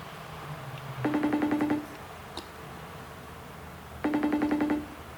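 Telephone ringback on an unanswered call: two steady buzzing rings, each under a second, separated by a pause of about two seconds with a faint click between them, over low background hiss.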